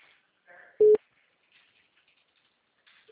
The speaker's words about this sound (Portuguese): Caiu a ligação, não deu para ouvir mais sua voz.